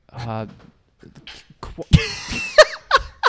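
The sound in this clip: A stifled sneeze, held in, bursts out as a sharp, loud blast, followed by a few shorter bursts, with voices around it.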